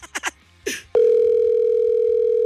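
A telephone line tone during a call that nobody answers: a few short bursts, then one loud, steady, unbroken tone that holds to the end.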